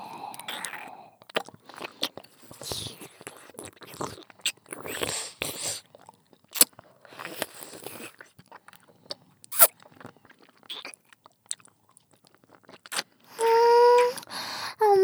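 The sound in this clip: Crunchy candy being bitten and chewed: many sharp, crisp cracks and wet mouth sounds in an irregular rhythm, with a short voiced sound near the end.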